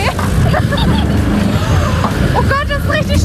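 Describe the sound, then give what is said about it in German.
An amusement ride speeding up after its lever is pushed forward makes a steady, loud rumbling roar, with people talking over it. “Aber jetzt nehmen wir hier wieder Fahrt auf. Was musst du machen, um schneller zu fahren? Den Hebel nach vorne.”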